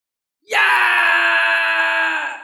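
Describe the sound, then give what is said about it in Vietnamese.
A spirit screams as golden flames burn it: one loud, sustained, harmonic wail that starts abruptly, holds steady for about two seconds and eases slightly at the end. “Luồng chân linh này của Tác Cô hét lớn và bị ngọn lửa vàng ống ánh kia nhấn chìm.”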